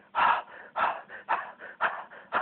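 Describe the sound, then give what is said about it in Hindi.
Fast, forceful breathing exhalations from a rapid breathing exercise, each breath pushed out in a sharp jerk while the inhale happens passively. A steady series of short, breathy, hissing bursts follows one another in a quick, even rhythm. “इस तरह करके झटके से सिर्फ बाहर exhale करते जाएं, वो इनहेल खुद होगा, उसमें रोकने का नहीं।”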